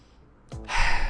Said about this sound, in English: So go ahead, do it right now. Take a big breath in with me.